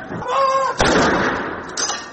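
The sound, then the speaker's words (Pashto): Artillery gun salute fired by British armed forces at a royal funeral at Windsor Castle: a brief steady tone, then a heavy blast with a long rumbling decay and a weaker second report. “د برتانیا د وسلوالو ځواکونو سرتیری په منظمو لیکو کې ودرېدل او د درناوي لپاره د توپونو ډزې وشوې.”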